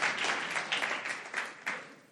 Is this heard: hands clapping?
yes